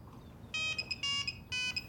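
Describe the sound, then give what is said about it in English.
A telephone rings with an electronic ringtone: three bright, steady tonal bursts in even rhythm over a faint low hum. “She grins as the phone rings.”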